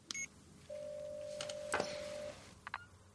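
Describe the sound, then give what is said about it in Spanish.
A mobile phone is opened and a call dialed: a few faint clicks, then one steady, mid-pitched tone held for over a second, followed by more brief clicks. “La vuelve a bajar y coge el móvil dudosa. Lo abre y llama.”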